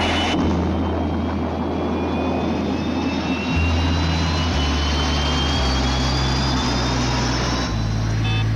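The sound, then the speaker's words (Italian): Airplane taking off: a loud, steady jet engine roar with a high thin whine on top and a deep engine hum beneath that shifts in steps, continuing throughout with no voices. “Decollo perfetto, comandante. Non risultano difetti di nessun genere.”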